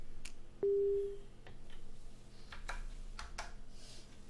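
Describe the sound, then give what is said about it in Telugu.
A telephone busy tone after a cut-off call gives one short, steady beep early on. It sits over a constant background hiss with scattered soft clicks and taps around it. “So call cut అయిపోయింది.”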